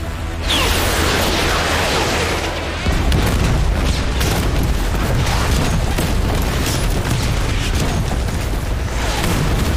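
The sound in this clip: Explosions of new-type ammunition pound a hilltop position during battle, a loud, unbroken barrage of deep booms and rumbling blasts that swells in the first second and grows heavier in the low end after about three seconds.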